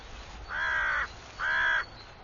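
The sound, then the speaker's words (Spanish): Crows or magpies give two harsh, drawn-out caws of equal length, each lasting about half a second, separated by a short pause over a quiet background. “Pero la presa no debería ser tan fácil de encontrar, especialmente habiendo cuervos y urracas por la zona.”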